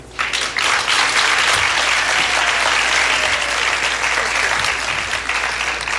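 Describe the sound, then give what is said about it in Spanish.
An audience applauds to welcome a performer, with dense, steady clapping that holds at an even loudness for about six seconds, without talk. “Por favor, denle una calurosa bienvenida a Karina Cantor, quien se ha memorizado algo para nosotros.”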